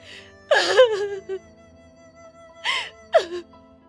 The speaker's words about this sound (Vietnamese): tiếng khóc lạc giọng lại vang lên.